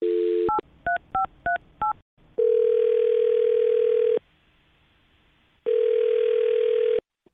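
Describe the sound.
Touch-tone telephone call: a short dial tone and a quick run of keypad beeps, then two long, steady ringing tones separated by a silent pause, with no voices.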